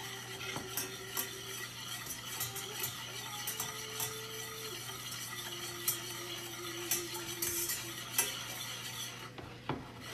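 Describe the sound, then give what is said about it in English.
A whisk stirs liquid in a bowl in a home kitchen, making many light metallic clicks and scrapes in an uneven rhythm over a steady low hum. “I'm starting just to whisk the liquid.”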